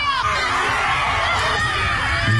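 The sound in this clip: Loud crowd shouting and screaming during a stick-breaking ritual in a forest, with many high, raucous voices overlapping continuously throughout.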